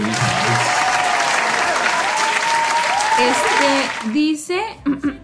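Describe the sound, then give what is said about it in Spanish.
Audience applause fills the first four seconds, a dense, even clatter of many clapping hands, then fades as a voice begins speaking. “dice Corti, los aplausos, pagamos, tenemos presupuesto para esto.”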